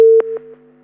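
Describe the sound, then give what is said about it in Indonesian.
Telephone busy tone after a call is cut off: a steady mid-pitched electronic tone held throughout, with a few short pulses stacked on top that fade one after another. No talking. “Sepertinya terputus ya.”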